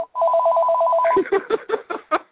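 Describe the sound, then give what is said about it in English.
An office work phone rings with a warbling electronic trill that lasts about a second, followed by a few shorter, choppy tonal bursts. “sorry, that's my work phone. There's nobody else here to answer it, so it'll just go to answer, which is fine.”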